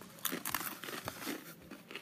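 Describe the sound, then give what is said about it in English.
Crunching as someone bites into a crunchy chip flecked with parsley flakes: a quiet run of many crisp, crackly snaps and crumbles, uneven in rhythm, with no talking. “Does everyone want to try their chip? Okay, I'm ready.”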